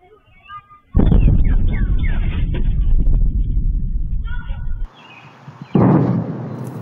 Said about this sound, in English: This happened in Virginia, and it prompted military fighter jets to scramble so fast they caused a sonic boom. Listen.